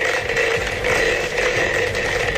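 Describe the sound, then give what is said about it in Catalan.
A lottery drum being spun gives off a continuous, steady churning rattle at an even level throughout, with no talk over it. “Torna a fer girar el bombo. Va, truca, per favor, truca. Torna a fer girar el bombo.”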